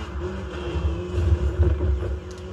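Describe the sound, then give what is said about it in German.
Loud engine roar of a VW GTI driven at around 340 km/h in a racing video game: a steady, deep droning rumble with a sustained tonal hum and slight swells in intensity. “Aber wie schnell wir einfach fahren. Äh, Real Life könnte man also die VW GTI nicht so heftig auftun, dass er 340 fährt.”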